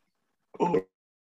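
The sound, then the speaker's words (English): A single short, rough cough from a person, alone in otherwise quiet surroundings, with no talk around it. “oh man, we got him coughing over there.”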